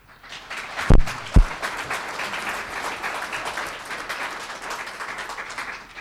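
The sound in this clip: An audience applauds to welcome panel speakers, beginning with two sharp, loud claps and then settling into steady, even clapping that lasts about five seconds.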